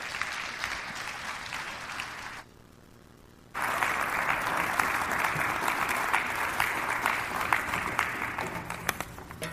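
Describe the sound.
Church audience applauding to welcome a guest speaker: dense, steady clapping that drops to a quiet lull for about a second, then resumes full and even until the end.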